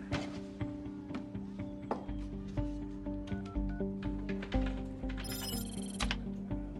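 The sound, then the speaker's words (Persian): A landline telephone ringing in steady, repeated pulsing tones, with a brighter, rapid high trill breaking in briefly toward the end. “میتونی از این خط ثابت با هم تماس بگیری؟”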